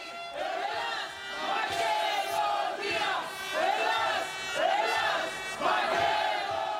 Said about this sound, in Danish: hvad var det, vi hørte her? Jamen, det var jo en stor demonstration, som fandt sted i søndags